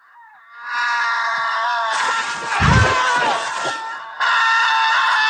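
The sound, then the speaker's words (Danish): A man's long, sustained scream of pain from a film scene in which he is cut open. The strained, harmonic cry swells rougher and louder midway, breaks off briefly near the end, then resumes. “vi får det længste skrig, jeg nogensinde har hørt i en film, hvor en bliver sprættet op, og så skriger han bare i smerte”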